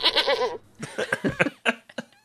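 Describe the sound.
A goat bleats in a quick run of loud, wavering, nasal cries with short pauses between them and no talk.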